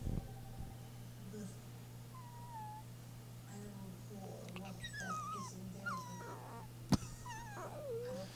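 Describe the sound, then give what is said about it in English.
Dog whimpering: a few faint, thin high whines that slide up and down in pitch, spread over a steady low hum. “You leave that poor dog alone.”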